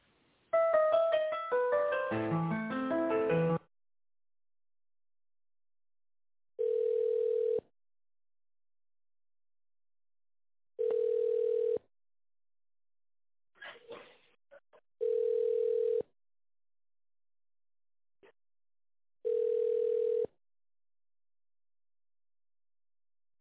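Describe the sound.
A telephone ringback tone while a call is being put through: four steady, low-pitched beeps, each about a second long and evenly spaced several seconds apart, following a brief burst of other sound at the start.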